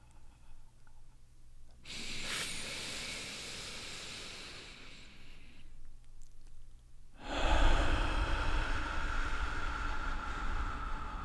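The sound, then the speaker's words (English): A group breathing together in unison: one long, soft inhale, a short pause, then a fuller, louder exhale that trails on to the end. “let's breathe together for a second.”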